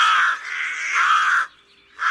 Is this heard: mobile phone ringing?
no